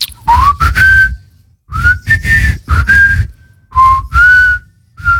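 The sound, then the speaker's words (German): A person whistles a tune alone: a clear, melodic series of short phrases, each with a sliding pitch and separated by brief pauses. “kannst du eigentlich gut pfeifen? Natürlich, soll ich jetzt mal. Bitte.”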